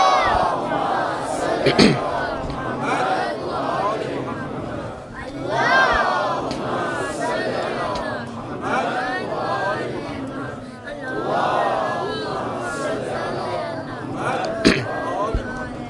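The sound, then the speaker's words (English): A crowd of young Muslims loudly chants salawat in unison, a dense wash of overlapping voices that swells and recedes in rolling phrases. A few sharp knocks cut through, and scattered chatter mixes in. “And if you understand, my little brothers and sisters, three loud salawats.”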